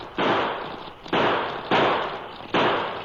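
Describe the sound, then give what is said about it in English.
Four gunshots from a pocket model revolver, each a sharp loud burst with a decaying tail, fired in quick, irregular succession with no voices. “the cracksman let loose of the handbar and pulled a pocket model revolver. In quick succession, he triggered out 6 shots.”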